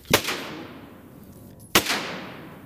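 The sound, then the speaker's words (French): A larger-calibre firearm fires two loud, sharp shots about one and a half seconds apart, each followed by a decaying boom. “Il charge les munitions. Et là, on va partir sur une arme un peu plus grosse.”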